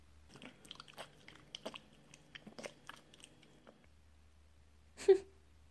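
Food being bitten and chewed: many small, crisp crunches come in an uneven rhythm for about four seconds. After a short quiet gap there is one louder, brief burst.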